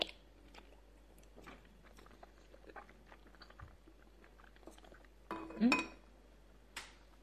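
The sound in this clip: Food being chewed during a meal, with soft, faint bites and mastication mixed with occasional clinks of dishes and cutlery. A louder rattle and crunch comes near the end.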